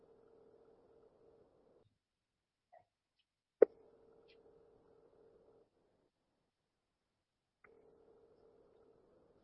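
An unanswered telephone call ringing on the line: faint, steady low tones about two seconds long, separated by long silent gaps, with the last tone cut off. A single sharp click falls just before the second ring.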